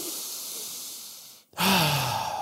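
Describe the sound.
A deep breath, heard as airy hissing breath, then a brief near-silent gap and a louder, fuller breath with a faint voiced sigh, all fairly quiet.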